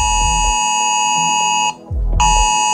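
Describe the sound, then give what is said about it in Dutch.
An emergency alert test tone sounds from mobile phones in the Netherlands: a loud, harsh, shrill buzzing tone that cuts out briefly once and then resumes at full strength. “Maar vandaag wordt NL Alert getest, als deze dus.”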